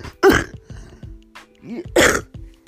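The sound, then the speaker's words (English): A coughing attack: two harsh, loud coughs bracket a run of smaller coughs and throaty rasps, with no talking. “I apologize for the coughing attack”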